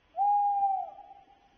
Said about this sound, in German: Das würde mir nachts im Wald einen Schauer über den Rücken schicken. Der Waldkauz.